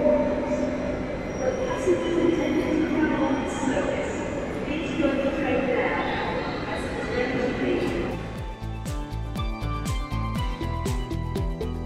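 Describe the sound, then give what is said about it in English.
A Class 47 diesel locomotive hauls a charter train slowly toward a platform, its engine droning under talk, then a rhythmic clatter of wheels over rail joints takes over. “Slowly approaching the platform now, hauled by a diesel locomotive, a Class 47,”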